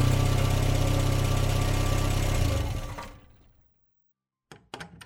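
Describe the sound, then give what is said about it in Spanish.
A car arrives and stops. Its engine rumbles steadily and loudly, then dies away to silence, followed by a few sharp clicks. “escuchó el ruido del auto que se detenía”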